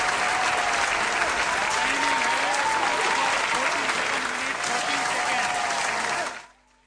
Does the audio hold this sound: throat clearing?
no